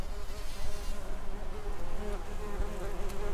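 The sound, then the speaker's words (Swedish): Flies and bees buzz around a rose bush in a continuous, overlapping drone of wingbeats that swells and fades as the insects move about. “Ja, visst är det härligt med lite flugor och surrande bin i en rosenbuske. Det är faktiskt ljud som jag har tagit själv här hemma i Rö”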